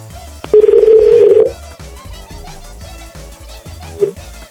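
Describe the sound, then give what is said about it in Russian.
Telephone dialing tones on an outgoing call: a steady, loud, low tone holds for about a second, then after a pause a single short beep sounds near the end. “Я звоню сейчас.”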